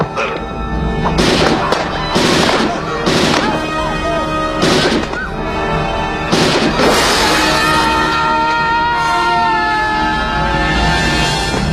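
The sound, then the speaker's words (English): Gunfire from the film RoboCop: several loud, sharp blasts burst out over the first seven seconds above a sustained musical drone, which carries on alone afterward. “He just shot him out the window.”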